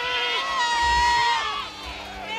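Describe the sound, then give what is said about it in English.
Goats bleat on a steep hillside, part of a herd of more than 300 brought in to graze thick vegetation. Several wavering, nasal bleats overlap one another, loud and close together, with no pause between calls. “Yes, goats.”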